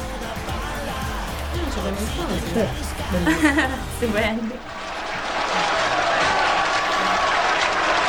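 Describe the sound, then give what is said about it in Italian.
Voices and laughter come first, then a dense, steady wash of audience applause takes over and continues to the end. “Stupendo. 92 minuti di applausi.”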